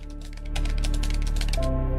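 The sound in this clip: Rapid typing on a keyboard as a message is written, many quick clattering keystrokes over steady background music, growing louder after the first half second.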